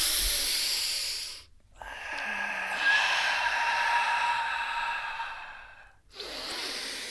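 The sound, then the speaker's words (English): Forceful breathing from a fierce breathing exercise: loud, rushing, hissy breaths that run long and steady, with a short pause partway through and another near the end before the breathing resumes. “Fierce breaths.”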